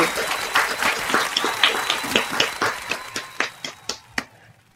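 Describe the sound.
An audience applauds to welcome a guest onto a show, dense clapping that thins out toward the end into a few separate, fading claps.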